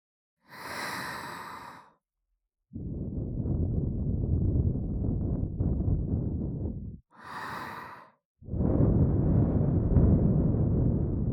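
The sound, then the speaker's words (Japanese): Soft breath blown into the ear: two long, steady, airy blows, each preceded by a short, breathy inhale, quiet and hushed with no talking. “お耳ふうふう欲しいもんね。”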